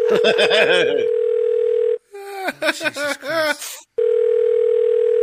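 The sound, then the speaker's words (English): A loud, steady telephone tone for a phone call drones, breaks off while voices talk in the gap, then resumes unchanged. “She's like, they're gonna give him a phone call.”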